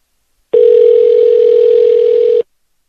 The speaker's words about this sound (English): It's like ringing like it's a real person's number.